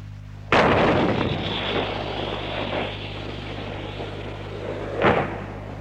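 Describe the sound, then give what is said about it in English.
90mm tank gun fired from an M48A3 tank: a sudden loud blast followed by a long rolling, roaring rumble that slowly fades, then another sharp report near the end. No voices. “the 90mm tank gun, fired from an M48A3 tank, known affectionately as the General Patton.”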